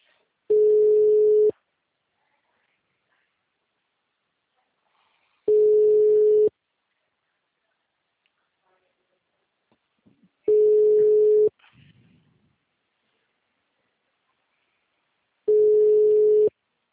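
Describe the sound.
Telephone ringback tone on a calling line: four long, steady mid-pitched beeps, each about a second, evenly spaced with several seconds of silence between them, and a brief faint rustle after the third.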